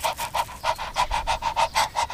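A dog pants after a walk in the park: a steady run of many quick, evenly spaced breaths, moderately loud and with no other sound.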